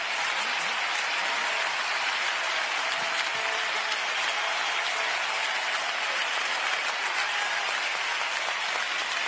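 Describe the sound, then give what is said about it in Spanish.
Loud, dense applause from an audience saluting two esteemed masters, a steady wash of many hands clapping that holds evenly for the whole stretch with no voices standing out. “el aplauso bien fuerte para estos dos grandes maestros”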